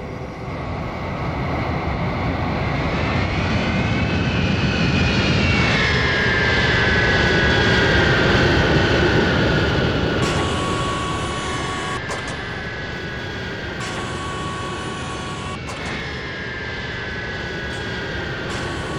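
Spacecraft landing in an audio drama: a loud, continuous jet-like engine roar with a high whine that slowly drops in pitch, holding steady for a long stretch and then easing slightly in its final part.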